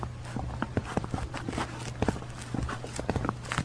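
Footsteps walk along a narrow private lane: many quiet, evenly paced steps with soft scuffs, over a low, steady hum.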